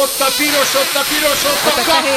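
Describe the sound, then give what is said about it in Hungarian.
A person blows hard into a breath-measuring device, producing a steady, breathy rush of air that hisses continuously for about two seconds at fairly high level. “Na most fújj meg, na, most lesz a jó, most bekapcsoltam.”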